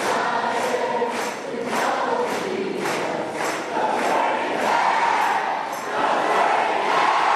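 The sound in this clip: An audience shouts a declaration together, cheering as if for a team. A few loud, rhythmic bursts of massed voices come early, then sustained crowd shouting continues at a steady level.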